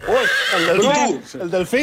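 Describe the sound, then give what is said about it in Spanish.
A horse whinnying, played as a clue in an animal-sound guessing game: loud, wavering calls that rise and fall in pitch, coming in a few bursts one after another. “Caballo.”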